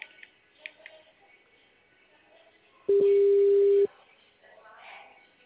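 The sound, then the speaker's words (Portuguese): A single steady telephone tone lasts about a second while a company's support line is being called. Faint voice-like sounds come before and after it. “Vou ligar lá para ver se eles...”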